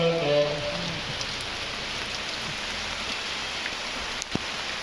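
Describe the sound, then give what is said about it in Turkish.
Steady rain falls on a street in the Jabaliya refugee camp in Gaza, where Palestinians perform the Eid holiday prayer outdoors among bomb-wrecked buildings. The rain is a continuous, even hiss with no voices standing out. “Bölgedeki Filistinliler yağmur altında sokaklarda bayram namazını kıldı.”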